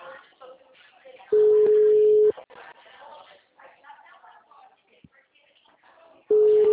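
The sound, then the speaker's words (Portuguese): An unanswered WhatsApp call rings: a steady mid-pitched ringback tone holds for about a second, falls silent while a person talks, then sounds again at the very end. “Ninguém atende, tá chamando no WhatsApp, mas ninguém responde, porque provavelmente deve ser gente que trabalha.”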